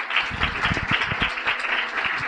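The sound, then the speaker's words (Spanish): Applause from a conference audience welcoming a speaker, a continuous patter of many hands clapping at a steady, fairly loud level for about two seconds. “Les pido por favor un aplauso para el doctor Huitrón.”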